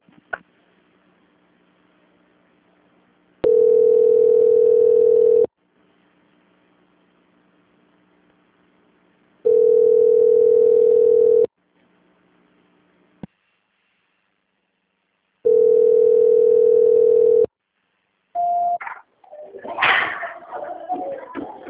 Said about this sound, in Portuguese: A ligação vai ficar muda, mas a senhora não desliga, senão logo em seguida alguém vai entrar na linha, tá? Transferência.